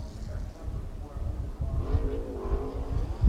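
NASCAR race cars, including the Joe Gibbs Racing entry, come off turn four under the caution flag with a low, steady engine rumble that swells slightly toward the end.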